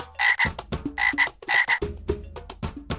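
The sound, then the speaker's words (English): A frog croaks in a loud series of rasping, buzzy calls. Each call is followed by lower clicking pulses, and the pattern repeats in a steady rhythm with no talk. “Frog.”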